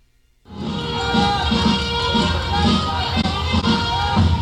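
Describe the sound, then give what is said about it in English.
Hundreds of people cheer as Cuba's flag is raised by a color guard outside the Cuban embassy in Washington, D.C. Loud, dense crowd noise surges in after a brief near-silent moment and holds steady to the end. “Cuba's national anthem filled the air and hundreds of people cheered Monday morning as a color guard solemnly hoisted the country's flag in front of the Cuban embassy in Washington, D.C.”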